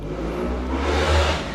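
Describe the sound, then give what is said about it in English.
Motorcycles revving: a steady low engine rumble that swells louder near the middle, then eases back, with no voices over it. “you can hear some motorcycles revving.”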